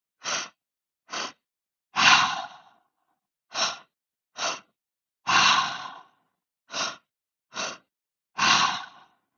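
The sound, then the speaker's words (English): A breathwork pattern of two quick, short inhalations followed by one longer exhalation, repeated three times. The breaths are soft and airy, each cycle separated by brief silence, with no talking. “You will have two inhalations to each exhalation. It will sound like this.”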